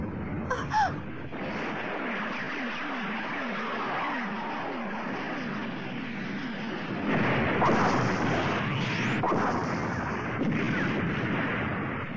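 Guns fire at a monster during a battle scene in an animated film: a sharp crack near the start, then dense rumbling noise that grows louder again past the midpoint.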